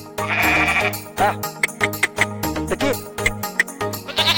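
Goats bleat in a rapid series of wavering, nasal calls, many short cries overlapping and following one another with brief gaps between them.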